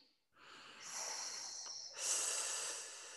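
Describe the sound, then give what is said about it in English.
A nasal inhale followed by a long hissing S exhale through the mouth, done as a snake-breath relaxation exercise. A soft, steady intake runs about a second and a half, then a brighter, sharper hiss holds to the end. “So a snake breath is a breath in through your nose and then out through your mouth in a long S like a snake.”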